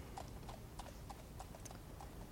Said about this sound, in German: Ich muss hier auf meine Pferdebahn warten.